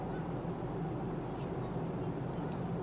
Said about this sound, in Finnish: No on tämä kone sinänsä vielä ilmassa. Ei mitään hätää niin kauan kuin ollaan ilmassa.